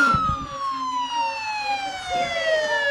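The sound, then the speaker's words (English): A police siren wails steadily and loudly, its pitch sliding slowly downward across the whole stretch, with a low traffic rumble beneath it. “More cops! Damn it!”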